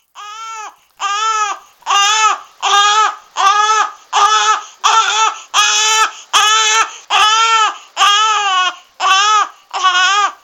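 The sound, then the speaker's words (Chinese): A baby cries in many regular wailing bursts, each a high, quavering cry split by brief breaths, loud and alone. “突然间听见一阵阵嘅 BB 仔喊声啊！”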